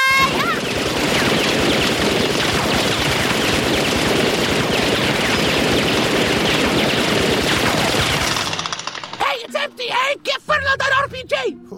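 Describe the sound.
Machine-gun fire rattles in a loud, continuous rapid stream for about eight seconds before it stops, and voices then talk over the quieter remainder.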